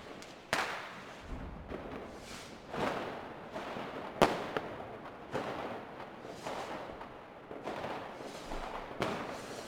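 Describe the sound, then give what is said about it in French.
Fireworks go off in many irregular pops, cracks and dull thumps over a continuous crackling hiss, fairly faint and without voices. “Alors on va se quitter sur un feu d'artifice”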